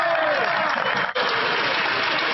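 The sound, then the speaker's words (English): Liberal members standing and clapping in parliament: dense, steady applause that fills the whole moment without pause. “So look at all the Liberals standing up and, of course, clapping and whatnot for that response, kind of a dig at Pierre Poilievre.”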